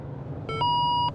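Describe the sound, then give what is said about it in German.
A speed measurement device on a highway with an 80 km/h limit gives an electronic beep as it triggers: a brief buzzy tone, then a longer, steady, clear tone, loud over a low road rumble. “Auslösen einer Geschwindigkeitsmessung auf der BRB 2 in Fahrtrichtung Hannover.”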